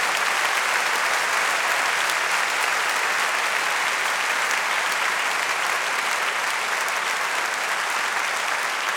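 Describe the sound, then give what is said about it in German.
An audience claps in dense, continuous applause, loud and even throughout with no pauses or clear voices. “Ich brauche euer Klatschen, okay?”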